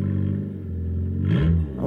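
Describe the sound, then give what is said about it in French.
A car engine revs with a vibration from wear that appears when accelerating; a low, rough engine drone climbs and grows louder toward the end. “c'est quand on accélère, là, ça fait une vibration, en fait. Moi, c'est l'usure, hein, tout simplement.”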